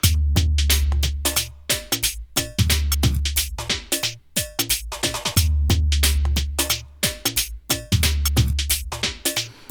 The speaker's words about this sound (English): Well, let's start with the basic beat. Sounds like this.